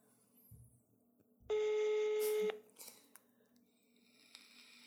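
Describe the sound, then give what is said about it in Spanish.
As a phone call is placed, a single steady telephone tone sounds for about one second, loud and even in pitch. Faint rustles and small clicks come before and after it. “Bueno, vamos en este momento a iniciar la llamada.”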